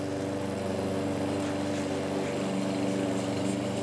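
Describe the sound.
A lawn mower cutting a lawn, its engine giving a steady, humming drone with a buzzing harmonic whine that holds constant and unbroken throughout.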